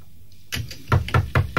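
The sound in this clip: Knocking on a door as a sound effect: a few light taps, then four heavy, evenly spaced raps with a solid, hollow thud.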